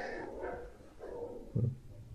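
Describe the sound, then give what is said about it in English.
Dogs bark faintly in a few short, scattered bursts, the last one slightly stronger, against a quiet background. “the dogs are at it again.”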